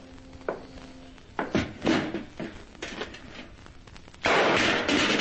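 A tin box set down on a table and opened in a radio mystery drama: a few knocks and scraping clunks, then a sudden loud, sustained rattling noise near the end.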